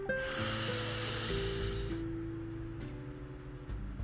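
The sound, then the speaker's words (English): A deep inhaled breath draws a long, airy hiss that fades after a couple of seconds over soft sustained musical tones. “take a deep breath in”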